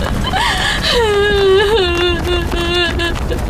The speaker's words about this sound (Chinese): 你再哭，你活不过来啊！啊，别哭了啊！